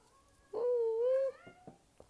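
A cat gives one drawn-out, fairly faint meow lasting under a second, followed by a few soft taps and rustles.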